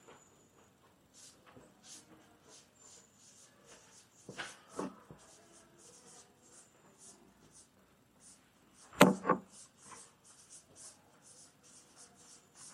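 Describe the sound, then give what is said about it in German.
Scratchy writing on a board, soft continuous pen or chalk strokes with a couple of louder scraping marks, faint and without talk. “Deswegen schreibe ich es dran, damit das klar ist.”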